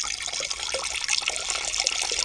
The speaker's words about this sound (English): What do you want me to do, sir? Urinate. Pass your water.